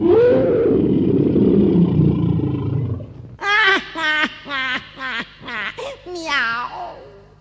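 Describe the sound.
A deep, growling lion roar, made as a cat transforms into a lion in a children's tale, fills the first three seconds and fades, followed by a voice in short bursts.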